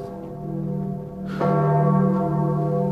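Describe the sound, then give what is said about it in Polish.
Church bells ring with steady, sustained metallic tones. A louder strike enters about halfway through, and its rich overtones hum on without any talk. “Co to jest? A, to niech pan się nie boi. To dzwony.”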